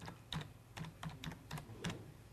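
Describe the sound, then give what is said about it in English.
Keys clatter on a computer keyboard as the word "litigious" is typed, producing a quiet, uneven run of separate clicks and short clusters with no voices. “I'll just type the word.”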